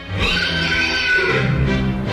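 A pony whinnies loudly and continuously for about two seconds, a shrill, quavering neigh over a rough, noisy background.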